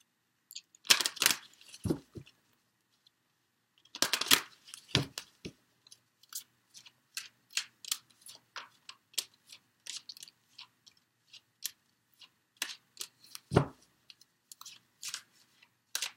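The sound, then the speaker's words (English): Cards are handled and drawn from a numerology card deck: soft papery rustles and crisp flicks. A few louder bursts come early, then sparse, faint ticks follow, with no talk. “Let me get one more card from the numerology deck.”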